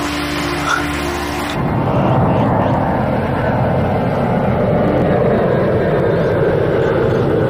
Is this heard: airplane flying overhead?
yes